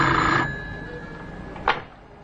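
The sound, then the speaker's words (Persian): A telephone rings on a desk in a hall. A loud ring opens the sound and fades, then a short sharp burst follows. “روز بعد سلیمانی پشت میزش توی تالار به تلفن جواب میده.”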